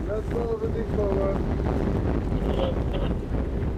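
Strong wind of about 80 km/h roars around a ship moored at a pier, a steady, loud, low rumble of buffeting gusts that runs throughout without letting up.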